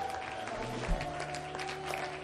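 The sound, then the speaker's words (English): An audience clapping hands during a church praise service: many overlapping claps form a continuous, fairly soft patter throughout the short stretch. “Let's clap our hands and magnify Him and bless His name.”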